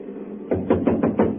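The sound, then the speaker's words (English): Knuckles rapping on a door: five firm, evenly spaced knocks, dull and woody, with nothing else around them. “First of all, we'll try rapping on the door.”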